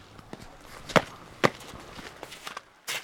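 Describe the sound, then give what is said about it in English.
Footsteps on frosty black tarmac: two crisp, sharp steps stand out among fainter scuffs and shuffles, followed by a short rustle at the end. “I step out onto the frosty black tarmac.”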